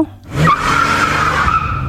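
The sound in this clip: A passenger car skidding with its tyres squealing: a loud, sustained, high-pitched screech that sets in quickly after a short rumble and holds for over a second, with no talk.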